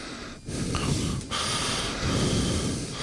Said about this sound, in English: we have been made aware that occasionally we breathe into the microphone. We've got it too close, like this.